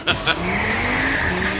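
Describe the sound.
A car engine and tire squeal from a video game trailer advertising a new car. A steady, high engine whine holds throughout with slight shifts in pitch, and two brief sharp chirps come near the start.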